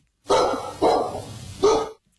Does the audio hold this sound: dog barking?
yes